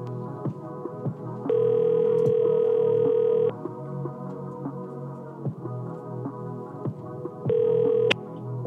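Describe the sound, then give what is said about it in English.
Voicemail message playback beeps: two sustained electronic tones, the first about two seconds long and the second shorter, each sounding over a steady humming background. “That was just a blank. That was just a beep.”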